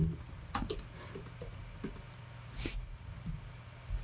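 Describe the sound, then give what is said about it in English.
Faint clicking of keys being typed on a computer keyboard, with irregular taps scattered over a low steady hum. No voices are heard. “And then I typed fast”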